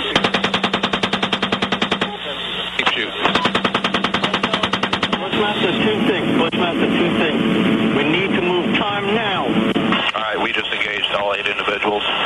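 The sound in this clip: Helicopter gunfire: two long bursts of rapid, evenly spaced automatic shots, then a dense, steady din with crew voices talking over the radio throughout.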